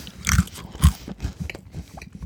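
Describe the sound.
Someone crunches into an algae cracker, giving a few sharp, dry, crackling bites with the loudest near the start, then softer crackly chewing.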